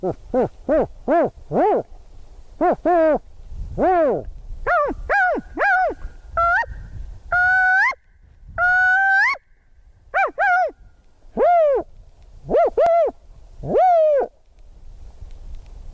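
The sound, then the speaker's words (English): A human voice imitates spotted owl hoots during a wildlife survey, giving a series of short, rising-and-falling hoots in irregular bursts with brief pauses, some rapid clusters and a few longer drawn calls, loud and alone. “What I like to do when I'm surveying for spotted owls and using my voice is kind of mix them all up and do something to the effect of,”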